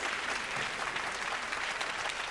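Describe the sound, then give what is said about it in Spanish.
A theatre audience applauds a man as he arrives, producing dense, continuous clapping at an even, fairly loud level from start to finish. “El público aplaude a un hombre que llega al anfiteatro.”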